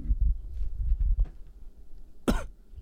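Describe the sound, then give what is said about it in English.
A person with strep throat coughs into a microphone, a single short, harsh burst near the end that follows low, rumbling handling noise. “cough in the mic, man.”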